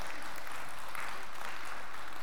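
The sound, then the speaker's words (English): Applause from a church audience makes a continuous crackling patter of many hands, steady and fairly strong throughout with no pauses. “You can applaud that,”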